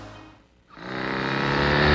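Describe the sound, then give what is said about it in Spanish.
A Hero Hunk 250R motorcycle engine revving, its loud, buzzing roar dipping briefly and then climbing steadily in volume to the end. “Hay motos que simplemente pasan, y hay una que te hace volver a verla. La Hero Hunk 250R tiene ese diseño que te atrapa”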